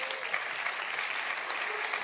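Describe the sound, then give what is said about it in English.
Steady applause from a church audience, a dense, even patter of many hands clapping without pauses, moderately loud throughout. “you can clap for that and pray for all the leaders.”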